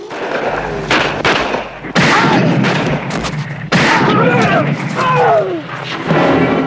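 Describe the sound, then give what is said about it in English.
Gunfire in a film shootout as two bikers fire at a man who crouches and shoots back: several loud, booming bursts of shots cut in suddenly, with a voice talking in the quieter stretches between them. “Two bikers spring out near a building and fire at him. Calmly, Kersey crouches, aims and blows them away.”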